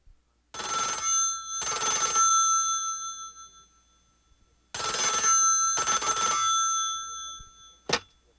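A telephone bell ringing in two bright, metallic double rings separated by a pause, followed by a very short final burst of ringing.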